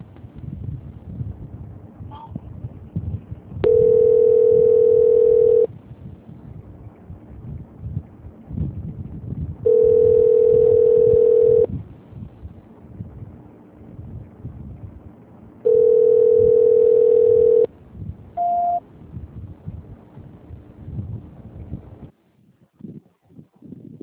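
Telephone line tone while a call is transferred: three long, steady mid-pitched beeps, each about two seconds, separated by gaps of low background noise, followed by one brief higher blip.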